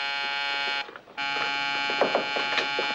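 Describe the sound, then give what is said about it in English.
A call buzzer sounds on the wall outside a private hospital room, a steady, harsh electric buzz that cuts out briefly about a second in and then resumes, with faint irregular clicks and knocks over it. “A light is buzzing on the wall outside a private room.”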